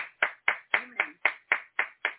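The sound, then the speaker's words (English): Rhythmic clapping from a church audience welcoming new believers: about nine sharp, evenly spaced claps in unison at a brisk, steady beat, fairly soft overall. “Everybody give our new believers a round of applause tonight.”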